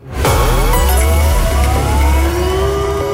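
An emergency radio alert signal sounds as a test round: a loud, continuous electronic wail that starts abruptly and keeps sliding in pitch for about three seconds.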